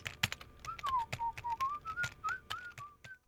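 Typing on a computer keyboard while writing programs: rapid, irregular clicks and taps under a steady whistled tune.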